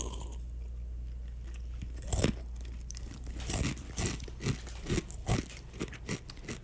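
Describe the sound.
Someone chews crunchy honey snacks taken from a small bag of treats that also holds chocolate: several crisp bites and crunches over a low steady hum.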